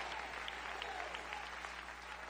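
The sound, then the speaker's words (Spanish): Congregation applause during a church service: dense, steady clapping with no clear breaks, fairly faint throughout. “Dale un aplauso de alabanza al Cristo resucitado.”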